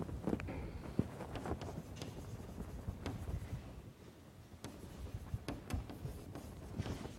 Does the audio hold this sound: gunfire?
no

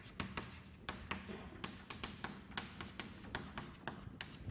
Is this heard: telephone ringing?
no

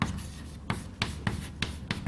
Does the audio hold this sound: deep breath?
no

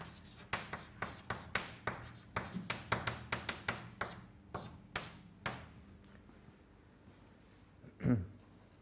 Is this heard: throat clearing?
no

